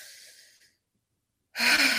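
A sharp, loud breath drawn in through the mouth, breaking in abruptly after a quiet stretch and still going at the end, following a fading breathy sound.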